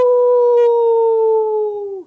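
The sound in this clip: A voice imitates a wolf howling at the moon: one long, loud, sustained vocal tone that glides slightly lower in pitch and then fades out at the end.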